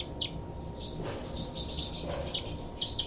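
Bird calls ring out as several short, high chirps at irregular intervals over a steady, noisy background, fairly faint throughout.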